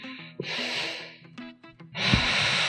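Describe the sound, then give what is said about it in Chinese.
Slow abdominal breathing, hand resting on the belly: two long, airy breaths of soft hiss over a faint, steady low tone, with a short gap between them. “把手放在肚子上感受，呼气，”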